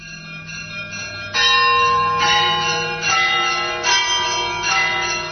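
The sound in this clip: Monastery church bells ring at Hilandar on Mount Athos, with loud, repeated overlapping strikes and rich, sustained metallic ringing tones that build and decay without any voices.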